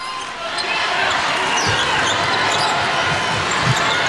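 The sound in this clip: A basketball is dribbled during a women's game between China and the Czech Republic, as China brings the ball upcourt against a full-court press. The bounces are buried in steady crowd noise, and commentators talk over the action.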